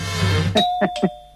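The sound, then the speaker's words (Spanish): Doorbell ring: a short electronic ring of a few bright tonal pulses over a steady held tone, sounding clearly and alone after a dull low rumble. “¿Un toque de timbre o no?”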